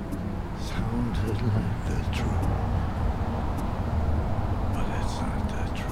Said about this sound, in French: J'ai loué une voiture à l'aéroport de Vienne et je roule en direction de la frontière tchèque. Ma destination, Hagenberg. Il pleut à verse.